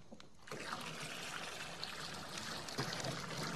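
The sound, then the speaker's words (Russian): Warm water pours from a bucket into an iron tub, a soft, steady trickling stream that runs without a break and stays faint from start to finish. “Марти подтаскивает железное корыто к камину на кухне. Берет с плиты ведро подогретой воды, выливает его в корыто.”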